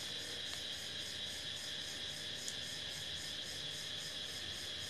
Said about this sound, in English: It's like mating season for cicadas. So they're going absolutely crazy right now.